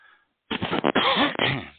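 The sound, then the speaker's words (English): A man's recurring cough comes as rough, throaty bursts with some throat clearing. Several run close together, fairly loud and alone after a short quiet moment. “that cough comes back every Thursday”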